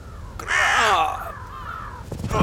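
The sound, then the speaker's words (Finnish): A crow caws at the edge of a busy market square, one harsh, drawn-out call rising out of a low outdoor background, followed by quieter rough noise near the end. “Tervetuloa Vilkkaan torin laidalle tutustumaan nokkelaan ja fiksuun lintuun nimeltä Varis.”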